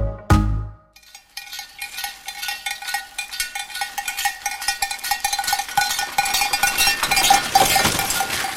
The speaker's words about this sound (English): That's the sound of a reindeer-drawn sleigh in Finland.